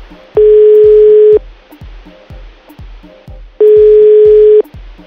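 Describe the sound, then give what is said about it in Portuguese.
Two loud, steady telephone tones, each about a second long and a few seconds apart, sound after a dropped call, over a low, regularly pulsing background. “Deve ter caído aquela esperançosa, né? Caiu a ligação.”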